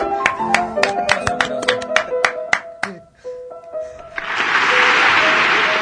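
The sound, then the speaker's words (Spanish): Applause follows piano playing: about four seconds of struck piano notes and chords die away, then a steady, dense burst of clapping fills the last second and a half. “Un aplauso para Corsi.”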